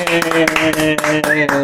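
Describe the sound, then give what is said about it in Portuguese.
A television studio audience claps in unison, sharp claps on a steady, brisk beat over a sustained musical tone. “agora aqueles todos que estão ali atrás que ganham 5 € ou 20 € a bater palmas.”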